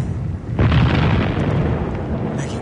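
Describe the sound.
A grenade explodes on a battlefield, a sudden deep blast that swells into a long, loud rumbling roar lasting over two seconds.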